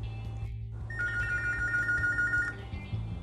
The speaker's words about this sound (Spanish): A continuación, daré paso a una llamada grupal de tres estudiantes.